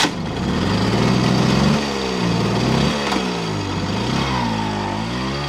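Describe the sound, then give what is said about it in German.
Moped riding in circles on a market square: a small, buzzy engine drones steadily, its pitch rising and falling in repeated waves as it speeds up and slows through the turns, loud throughout with no voices. “Vincent Hagen fährt mit seinem Moped auf dem Marktplatz im Kreis.”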